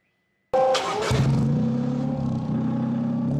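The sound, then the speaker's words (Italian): Exhaust of a hydrogen-fuelled combustion-engine car bursts in abruptly after a moment of quiet, a brief rev settling into a steady, loud, low rumbling drone. “Quello che sentite è il rumore dello scarico di un'auto a idrogeno, un motore termico che usa l'idrogeno come combustibile”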